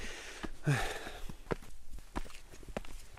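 Footsteps of people slowly climbing a long flight of about 140 stairs: many irregular, soft thuds and scuffs that follow one another at an uneven, unhurried pace.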